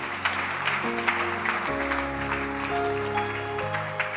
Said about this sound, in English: Clap your hands for them. Clap your hands for them.